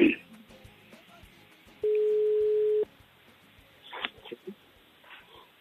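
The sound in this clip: A telephone ringback tone sounds while a call is being placed to a friend, a single steady, mid-pitched beep lasting about a second, with faint voices and clicks around it.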